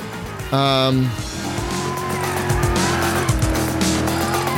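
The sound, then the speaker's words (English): Car race in a video game: a loud, sustained engine drone mixed with tire squeals and skidding, with people talking over it throughout. “But right now, V&K has a massive lead. So massive I can't even see who's in second place. I believe we're on the last lap now.”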